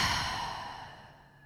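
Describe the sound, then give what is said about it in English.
A slow, deep cleansing breath out through the mouth during a guided mindfulness breathing exercise, a soft, airy whoosh that gradually fades over about a second and a half, with no talking. “Take a cleansing breath to begin in through the nose and out through the mouth.”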